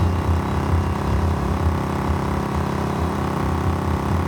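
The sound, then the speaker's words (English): Steady low engine rumble of a motorcycle ridden with two people aboard, a dense continuous drone that holds an even level throughout with no clear change in speed. “pulls the motorcycle over.”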